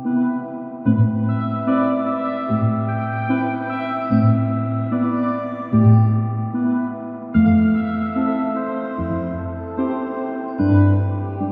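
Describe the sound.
Gentle instrumental background music from the video game Minecraft: soft, sustained low notes shift every couple of seconds beneath mellow higher tones, playing alone at a steady, calm level with no voices.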